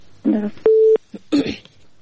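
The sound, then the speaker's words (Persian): A short, steady telephone tone sounds as a listener's call comes through on a Persian-language radio call-in show, set between brief snatches of voice. “فکر کنم بازم یک تماس داریم. خب تماس میگیریم.”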